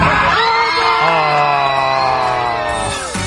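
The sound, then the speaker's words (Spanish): Airplane passengers cheer and shout together as if celebrating a World Cup final victory, a loud, steady burst of overlapping voices that fades slightly at the end. “Oye, están todos celebrando, porque le hizo creer que salieron campeones.”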